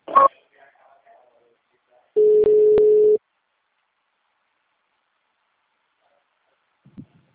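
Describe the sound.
A single steady telephone line tone, about one second long, sounds while a customer-service call is transferred to an agent. A brief voice fragment comes before it, with near-silence around it.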